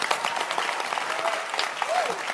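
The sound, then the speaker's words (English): Congregation clapping hands together in a church, a dense, steady wash of applause that holds an even level throughout, with a voice briefly audible over it. “Clap your hands for the rewarder.”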